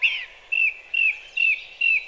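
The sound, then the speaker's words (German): Song thrush singing in a forest, five clear, high whistled phrases repeated at an even rhythm with short gaps between them. “Er sitzt da vorne im Busch, der braune, mit dem gesprenkelten hellen Bauch. Ach, da! Das ist eine Singdrossel.”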